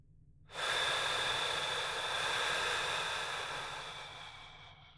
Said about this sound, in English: Nice deep breath in now. And out.